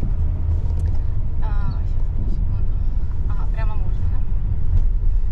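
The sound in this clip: Steady low road and engine rumble inside a moving car, continuous throughout, with voices talking over it.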